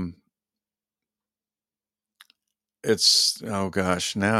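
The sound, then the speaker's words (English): Two quick, faint computer mouse clicks break a near silence, followed by a voice beginning to talk. “let me click over here to the story itself.”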